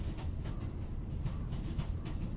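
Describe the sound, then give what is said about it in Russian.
A high-speed Moscow–Saint Petersburg passenger train in motion gives a steady, dense low rumble with a hiss of rolling noise that holds at an even level throughout, with no voices. “Скоростной поезд Москва-Санкт-Петербург шел тихо, как будто скользил по воздуху.”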